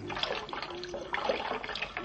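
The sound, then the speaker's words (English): Cold water poured to bathe an old man's injured head, a continuous, fairly loud splashing and trickling for about two seconds with no voices. “this cold water will help that head.”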